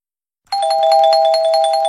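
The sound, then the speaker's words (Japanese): A deadline chime closes a quiz's entries: bright, sustained bell-like tones with a rapid, shimmering pulse that rings out loud and alone after a brief silence. “締め切りのチャイムが鳴りました。”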